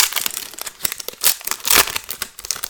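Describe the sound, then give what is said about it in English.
A foil pack of baseball cards is ripped open with dense, sharp crinkling and crackling, broken by a few louder tearing bursts as the wrapper gives way. No voices can be heard. “Here's our next pack, same type of pack here. Go ahead and rip that.”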